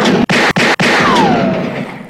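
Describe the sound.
A gunshot: a loud, harsh burst of noise broken by sharp short gaps, then a ringing tail with a faint falling whine that fades away.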